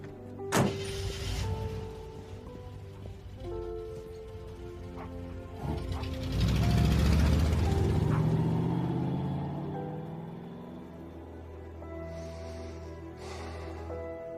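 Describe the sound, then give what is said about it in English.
A lifted pickup truck's door thumps shut, then the engine swells into a deep rumbling roar as the truck drives off, fading out over a faint background hum. “Skye runs to the curb and gets in her lifted pickup truck. On the porch, Henry watches her drive off.”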